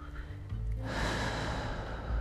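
A person breathing in: one long, airy inhalation that begins abruptly and holds a steady soft rush of air for more than a second, fairly quiet and heard alone.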